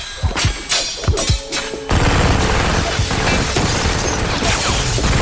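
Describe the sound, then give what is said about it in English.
Machine-gun fire in an action scene opens with a few sharp, loud shots in quick succession, then gives way to a dense, sustained roar of noise that lasts to the end, with no talk. “Danica begins to fire a machine gun at Abby.”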